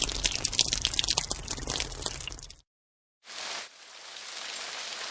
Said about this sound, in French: Et j'arrose la graine. Plic, ploc, plic.